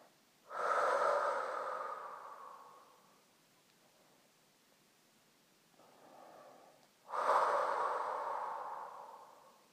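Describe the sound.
Deep breaths taken during a guided abdominal relaxation exercise: two long, loud, airy breaths, each slowly fading, with a shorter, fainter breath between them and no talk.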